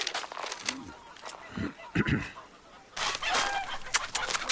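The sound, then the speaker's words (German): Chickens cluck in a rustic farmyard scene, giving repeated short clucks among busy background noise, with an indistinct voice partly mixed in. “Kommt, ihr Hühner, kommt. So ist gut. Fresst euch satt, damit ihr einen feinen Braten fürs Mondfest abgebt.”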